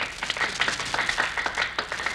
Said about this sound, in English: Jack, the people on the sidewalk are applauding.